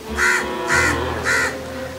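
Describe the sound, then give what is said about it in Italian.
A crow caws three times, each call harsh and loud, evenly spaced about half a second apart with short pauses between. “Ma anche tu sei un corvo. Come osi dire che i corvi sono brutti?”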